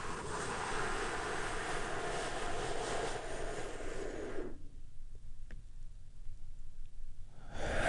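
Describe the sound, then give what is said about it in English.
A long, deep breath drawn in during a guided relaxation exercise: a steady breathy rush lasting several seconds that cuts off abruptly, then near quiet before the breath returns at the very end. “I want you to take a deep healing breath with me. Right now, here we go. And”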